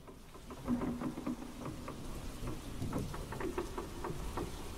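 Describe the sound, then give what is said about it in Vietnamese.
Heavy rain falling outside, heard as a faint, steady patter with scattered sharper drop hits that continues throughout without pause. “Ở bên ngoài mưa vẫn cứ dữ.”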